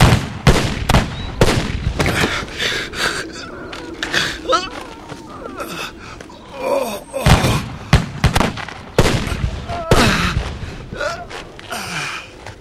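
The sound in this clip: A firing squad volley of gunshots in a period drama: a few sharp, loud cracks come in bursts, mixed with gasps and voices talking.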